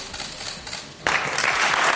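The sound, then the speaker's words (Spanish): Standing ovation from deputies in the Cortes de Aragón regional parliament chamber after the Justicia de Aragón's oath. Dense, sustained applause bursts in abruptly about halfway through, following a quieter stretch of low room noise. “Gimeno ha recibido una ovación cerrada. Todos los diputados se han puesto en pie”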